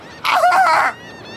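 A seagull gives a single loud, harmonic call that swoops in pitch and lasts under a second, with quiet background noise before and after.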